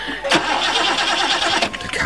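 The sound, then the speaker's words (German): A car engine cranks but fails to start, a loud steady whirring churn of the starter with uneven surges across two seconds, with a voice briefly overlapping. “Mein Gott, Sie sehen es doch, der Motor springt nicht an.”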